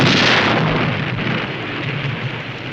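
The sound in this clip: A cannon fires after being aimed a couple of degrees left: one loud, booming blast that starts at full strength and fades slowly into a long rumble.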